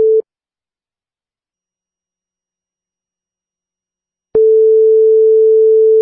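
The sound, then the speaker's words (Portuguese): Telephone line tone as a call is placed: a brief steady beep, a few seconds of silence, then a loud, steady mid-pitched tone that holds to the end, with no voices. “Vamos ligar pra esse pequeno vagabundinho juvenil e ver o que, que vai acontecer com ele aí.”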